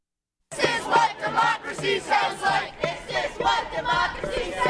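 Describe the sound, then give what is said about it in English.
Protesters at an anti-globalization demonstration chant in unison. The loud crowd voices rise and fall in regular rhythmic bursts, repeating one phrase over and over. “they're taking these protests to shareholder meetings around the world. This is the sounds of Seattle, the sounds of the battle after Seattle.”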